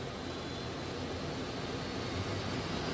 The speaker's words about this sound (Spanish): El avión despega y se eleva sobre la vista